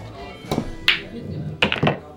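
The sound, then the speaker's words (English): A few sharp knocks and clacks from a pool cue and billiard balls as the 8-ball is shot into a corner pocket, with short hard impacts separated by brief pauses. “8-ball, corner pocket.”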